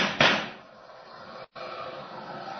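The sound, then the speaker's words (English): A gunshot fired by a police officer in a radio drama rings out as a single sharp, bright crack near the start, followed by a fading tail. “Nice shooting, officer. One of those bullets bounced off my chest.”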